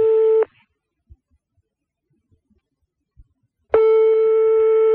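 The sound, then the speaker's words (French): A telephone ringing tone on a redialled call: a steady buzzing tone cuts off, leaving about three seconds of near-silence with faint clicks, and then the tone returns. “Ah va laisser sonner. Allez, décroche”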